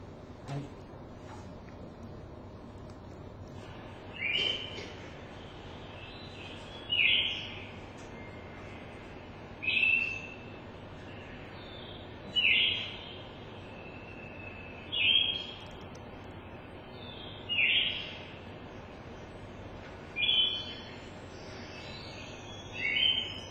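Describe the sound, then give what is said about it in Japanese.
A songbird sings short, high chirping phrases again and again at steady intervals of a few seconds. Each phrase is a brief bright burst over a constant low hiss of background noise. “孤独でキョロン、チリキとか、そういう割合短めの、さえずりを、張り上げています。”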